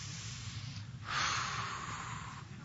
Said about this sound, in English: Lamaze, they teach you how to breathe in the midst of pain. Some of you have been there. Okay, take a cleansing breath.